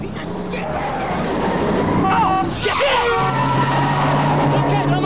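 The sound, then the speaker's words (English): A car speeds and turns hard during a chase, its tires smoking, with a loud continuous engine roar and brief squealing tones around the middle of the turn. “As John and Pappas' car tears after the robbers, it takes a left, raising smoke from its tires.”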